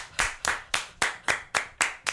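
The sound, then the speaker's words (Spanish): Hand clapping in a radio studio: eight sharp, evenly spaced claps in a steady rhythm, each crisp and bright with a quick decay, with no voices over them. “Volvámoslo a aplaudir.”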